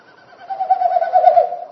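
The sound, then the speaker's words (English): Wilson's snipe winnowing in flight, its wingbeats pushing air through stiff outer tail feathers, gives a hollow, hooting, fluttering tone. It swells in loudness over about a second and is heard alone. “they do this flight, these winnowing flights is what they're called. So each time they flap their wings, it pushes air through the stiff outer tail feathers and it makes that woo woo woo woo woo kind of sound.”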